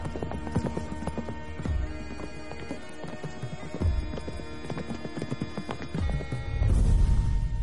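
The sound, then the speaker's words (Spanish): Hooves of two horses clip-clop as they gallop through a forest, a steady rhythmic drumming of hoofbeats that surges louder near the end. “Claire y Jenny galopan por el bosque.”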